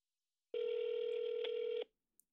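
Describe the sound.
A telephone call being dialed and ringing: a single steady, mid-pitched electronic tone lasting just over a second, then silence.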